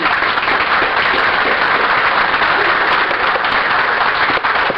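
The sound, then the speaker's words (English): Audience applause welcomes Dr. Reynolds as a speaker at an event, with dense, even clapping that stays loud and steady from start to finish. “So without further ado, please welcome Dr. Reynolds.”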